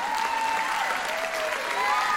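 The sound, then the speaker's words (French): Audience applause for the band musicians at a séga concert. Steady, dense clapping is joined by a few high cheering voices drifting over the top. “Applaudis toute bande musicien.”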